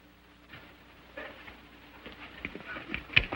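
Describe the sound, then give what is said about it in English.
Horses gallop into a ravine. Faint hoofbeats grow gradually louder and quicker toward the end, with a few sharper thuds at the close. “Zanty and his gang gallop into the ravine.”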